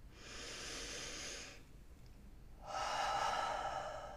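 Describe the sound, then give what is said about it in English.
A deep, conscious breath: a long breathy inhale, a brief quiet pause, then a fuller, louder exhale of similar length, soft airy hiss with no talking. “let's pause and take a nice, deep, conscious breath.”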